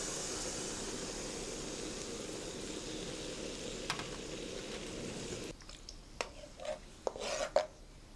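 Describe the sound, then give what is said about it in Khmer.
Stirring hot coconut milk in a pot gives a steady, loud rasping scrape that runs for several seconds, then drops to a quieter bed broken by a few light clinks and taps. “នៅពេលនេះខ្ទិះក្ដៅគឺខ្ញុំចាប់ដាំចាក់ខ្ទិះចូលកូរតែម្ដង”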